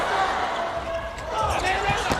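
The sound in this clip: A volleyball serve in a match involving Japan's team produces a single sharp slap of the ball near the end, heard under a speaking voice.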